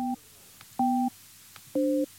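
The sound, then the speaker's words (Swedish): Telephone line tone while placing a call: three short, steady electronic beeps about a second apart. Each beep is a dual-pitched tone, and the last sits slightly higher. No one talks. “Vi ringer upp Linnea Rådberg.”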